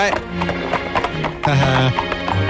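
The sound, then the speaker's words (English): Pony hooves clopping in a video game, with a whinny from the pony named Horace. Voices talk over the rhythmic hoofbeats. “Good Horace. How come Horace the pony wouldn't let me ride?”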